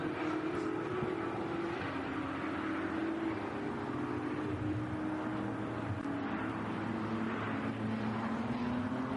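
Engines of racing touring cars on track, with a nimble VW Golf hunting down an Audi S3 in the same class. A loud, unbroken mechanical drone runs throughout, with whining tones that slowly slide in pitch.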